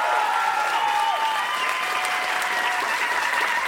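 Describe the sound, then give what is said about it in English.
An audience at a Largo comedy show gives a performer a huge hand: sustained, loud, dense applause with faint whistling woven through and steady intensity from start to finish. “Ladies and gentlemen, please have a huge hand for Mike Ferman.”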